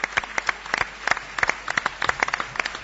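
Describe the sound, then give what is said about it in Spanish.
A small audience gives brisk, scattered applause for a guest on a live morning radio programme in Tarragona. The claps are sharp and uneven and last about three seconds, with no voices over them. “un aplauso para Jordi Cartañá, que se lo ha ganado”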